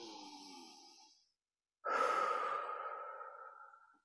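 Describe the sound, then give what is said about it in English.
Slow breath drawn in through the nose, then after a short pause a longer, louder breath let out through the mouth, soft and airy with no other sound. “Maybe take a breath in the nose and out the mouth.”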